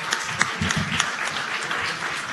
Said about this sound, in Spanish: Ahí venía el aplauso, porque estuvo bueno.